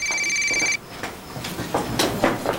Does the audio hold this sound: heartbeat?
no

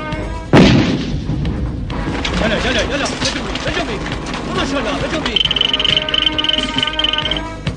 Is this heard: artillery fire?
yes

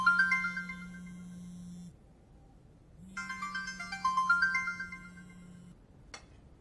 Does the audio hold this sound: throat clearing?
no

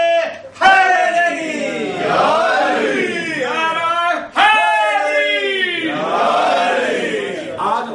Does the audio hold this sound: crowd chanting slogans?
yes

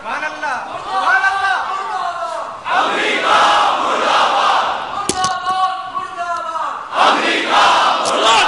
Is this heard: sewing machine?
no

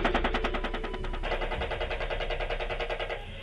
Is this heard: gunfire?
yes

